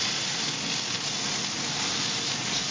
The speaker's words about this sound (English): So we're going to go ahead and flip the patties.